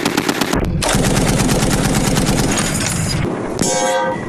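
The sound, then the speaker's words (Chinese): Rapid automatic gunfire from troops shooting from vehicles during a military operation. The bursts are loud and sustained and almost continuous, broken only by a couple of brief pauses. “随后，全队依托载具展开乘车射击，持续压制敌方反扑。”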